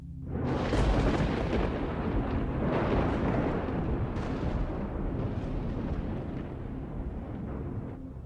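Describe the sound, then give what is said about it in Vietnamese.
A loud thunderclap from a lightning strike opens with a sudden crack and rolls into a deep, sustained roar that stays heavy for several seconds, with no voices. “Bất ngờ một tia sét ở trên tầng không sáng rực cùng với tiếng đinh tai nhức óc làm cho cả lũ phải rúm cả vào với nhau.”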